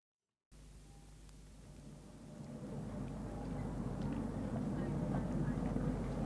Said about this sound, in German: Haltestelle Asternplatz. Ah ja, da fährt die Linie 3, die 45, der Autobus 9